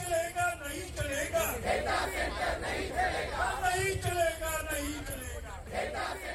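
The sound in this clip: A crowd of protesters in India chants against data centres, with loud massed voices shouting together continuously and overlapping throughout.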